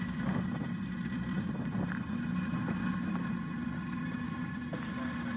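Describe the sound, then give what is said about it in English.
A rocket lifts off and climbs with a steady, dense engine roar that stays loud and even throughout, with no pauses. “and liftoff. Vehicle pitching downrange.”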